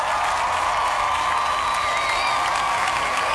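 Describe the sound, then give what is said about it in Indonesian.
Audience applause with cheering marks news of Indonesia's national football team climbing the FIFA ranking, a steady, dense spread of clapping and crowd noise that holds an even level throughout. “Kasih tepuk tangannya dulu.”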